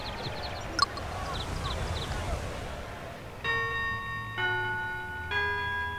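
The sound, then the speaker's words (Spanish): Three evenly spaced bell strikes ring out in a rhythm video game, each a bright, resonant tone that sustains until the next, following a stretch of quieter background noise with faint chirpy blips. “La campana de que ya llegó la hora de la cita, supongo.”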